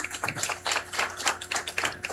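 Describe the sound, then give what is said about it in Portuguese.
Applause from a gathering, honoring people from several towns: a dense, uneven patter of many claps with recurring louder bursts, fairly faint, with no talk over it. “Uma salva de palmas a todos eles.”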